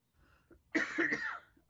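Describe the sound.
A man with a tickle in his throat lets out a single harsh, rasping cough, preceded by a faint breath, with no talk around it.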